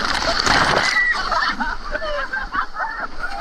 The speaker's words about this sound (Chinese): 一个大浪打过来